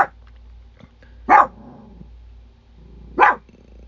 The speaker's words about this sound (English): my dog's barking in the background